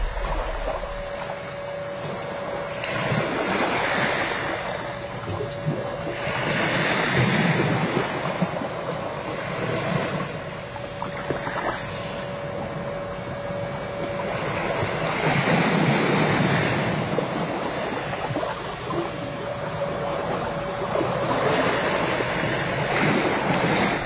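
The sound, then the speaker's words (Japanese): Ocean waves wash onto the shore of a small island at the southern tip of the Yaeyama Islands. The roar is steady and broad, with a few louder surges swelling and receding, and a light wind rushes across the microphone. “今皆さんにお聞きいただいているこの波の音も波照間島で撮ったものです。”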